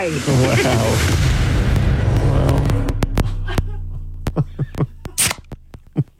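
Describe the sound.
A drink can is cracked open, giving a loud rushing fizz that slowly fades, followed by a few sharp clicks.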